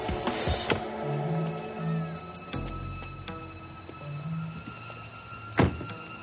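Car door sounds as a driver gets out of a parked car beside a building under construction in the rain: a dull low thunk and later a sharper knock, set against a steady hum with a few soft whirring tones.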